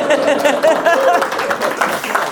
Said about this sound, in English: Round of applause for the tech team,